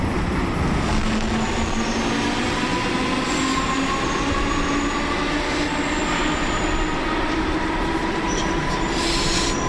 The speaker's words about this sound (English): It's a bit noisy now because I'm on the underground beneath Liverpool.